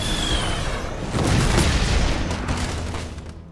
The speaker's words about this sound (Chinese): 一旁的天空上炸开一朵烟花